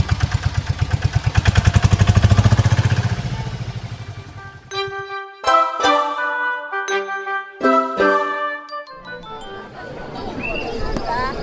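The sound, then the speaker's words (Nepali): A tempo three-wheeler engine starts with a rapid, low puttering throb that runs loudly for about four seconds and then fades. A ringing, chime-like melody of clear tones follows. “मैले tempo start गरेँ है त।”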